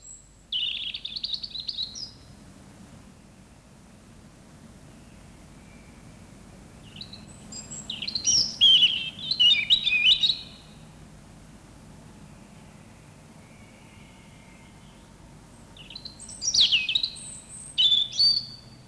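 Songbird song in three separate bursts: quick, high, bright, sparkling notes, each phrase lasting a couple of seconds, with quiet gaps between them over a faint, steady low background hiss.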